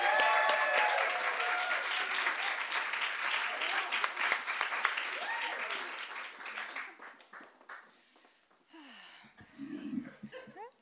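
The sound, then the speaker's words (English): An audience applauds to welcome a performer, with loud, dense clapping and cheering that holds steady for several seconds and then thins out and fades. A voice and a few scattered claps follow at the end. “Okay, you guys, put your hands together for the amazing Steffi Nelson.”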